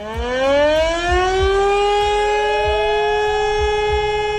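Civil defense warning siren sounding for a national warning day test in Germany, a loud wailing tone that rises steadily in pitch and then holds a sustained high howl with strong harmonics.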